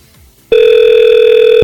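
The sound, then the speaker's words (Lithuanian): A telephone call is being placed: after a short quiet lead-in, one steady electronic line tone sounds alone for about a second, then cuts off abruptly. “o aš renku telefono numerį.”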